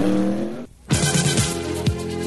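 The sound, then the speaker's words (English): Stock cars racing under green flag at North Wilkesboro Speedway in 1988, engines roaring loudly as several cars sweep past in quick succession, each pass dropping in pitch. “Back under green at the North Wilkesboro Speedway.”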